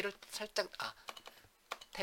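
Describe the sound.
Quick clicking keystrokes on a computer keyboard while list entries are typed, a few short bursts of taps heard under a person talking.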